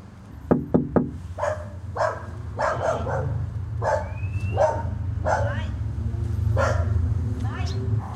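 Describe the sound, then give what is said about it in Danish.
A dog barks repeatedly outside a red-brick row house after a few sharp knocks on a door. The knocks come first as quick raps, followed by a steady run of many medium-pitched barks. “Et eller andet sted er der en hund, der gør, hver gang jeg banker på dør.”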